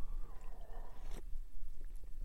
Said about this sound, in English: My beverage du jour today, I'm going to take a sip of it, see if you can identify this beverage.